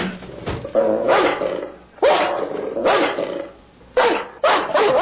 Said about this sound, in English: That's funny how that dog hates you. That's pitiful, isn't it? Perfectly good Doberman, mean as hell.